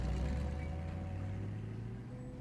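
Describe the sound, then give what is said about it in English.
A taxi driving off, its low engine rumble holding a steady hum that slowly fades. “Damn. They drove off together.”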